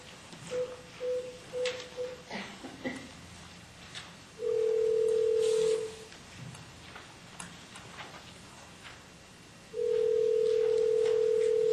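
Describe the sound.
Telephone tones while a call is placed: a run of short, evenly spaced beeps, then two long, steady, mid-pitched tones separated by a quiet gap, over a faint background hum.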